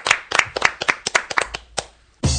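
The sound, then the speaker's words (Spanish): Applause for a guest comes as a quick series of separate, sharp hand claps in an irregular rhythm, ending in a sudden louder burst of clapping. “Un aplauso para Manuela Paz”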